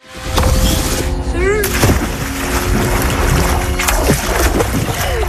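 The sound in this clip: Water splashes and churns in a swimming pool at a grandparents' home, a continuous, loud wash of spray and slaps, with voices talking and calling over it.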